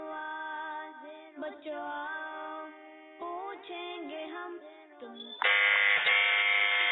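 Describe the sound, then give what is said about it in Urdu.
An electronic quiz-show buzzer pressed by a contestant on a religious quiz: tonal electronic sounds shift in pitch, then a loud, harsh sustained buzz rings out for the last second and a half. “نے buzzer بجائی ہے”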